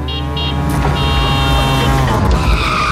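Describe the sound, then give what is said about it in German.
A tuk-tuk drives by with a steady, buzzing engine drone topped by high, whining tones. The sound stays fairly loud and even throughout, with no voices. “Wenn das Tuk-Tuk durch Deutschlands Bigste Beats fährt,”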